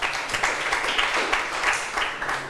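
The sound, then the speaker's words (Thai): Students clapping their hands for themselves in a classroom, a dense, steady patter of many hands that runs continuously at moderate loudness for the whole clip. “ปรบมือให้ตัวเองหน่อย”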